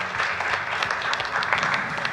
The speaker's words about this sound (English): Let's clap our hands one more time for the Lord.